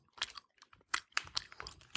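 Crunchy chewing of a grapefruit blood orange flavoured caffeine candy with 113 milligrams of caffeine: many quick, crisp, irregular crunches and bites, fairly faint, with no talk.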